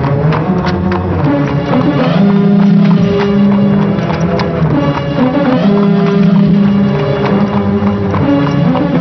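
Hooves of a horse pulling a carriage clip-clop in a steady, quick rhythm that continues throughout, loud and even with no pauses.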